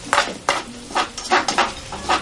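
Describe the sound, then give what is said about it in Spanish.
A metal lid clanks onto a frying pan while a tortilla is being made in a home kitchen. Several sharp clinks and clatters of cookware come in an uneven rhythm, fairly loud against a quiet background. “David está haciendo una tortilla. Pone la tapa sobre la sartén para darle la vuelta.”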